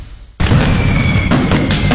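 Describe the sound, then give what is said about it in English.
Fourth of July fireworks bursting in the sky: after a brief quiet, a sudden dense wash of crackling, rumbling noise sets in and continues loud and steady, with a few sharper bursts near the end. “You'll be the envy of all your neighbors this 4th of July when you light up the sky with one of the largest selections of quality fireworks from Star City Fireworks.”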